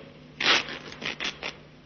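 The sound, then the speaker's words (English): Fabric tears in a few short ripping bursts as the lining of a raincoat is pulled apart, the first burst loudest and the rest quieter, with no voices. “Yeah, try ripping the lining, Sergeant.”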